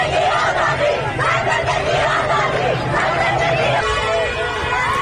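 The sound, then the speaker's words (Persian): Schoolchildren chant the slogan Woman, Life, Freedom together on their way home from school, a loud, continuous mass of young voices. Shouting and crowd chatter overlap throughout. “بله این صدای دهه 80ای ماست که بلدن شعارهای خودشونو بدن. به خصوص یکی از شعارهای محبوبشون همین شعار زن زندگی آزادیه که موقع برگشتن از مدرسه دست جمعی میخونن و میرن.”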